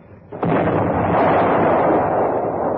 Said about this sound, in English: Number 1 gun fired, sir.